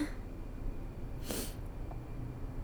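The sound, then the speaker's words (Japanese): A single quick sniffle from a runny nose caused by the cold, one short, sharp burst of air through the nostrils against an otherwise faint, quiet background. “ごめんね、ちょっと寒いから鼻水が。”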